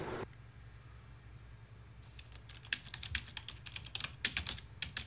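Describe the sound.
Typing on a computer keyboard: after a quiet opening over a low steady hum, uneven bursts of light key clicks start about midway and grow busier, staying faint throughout.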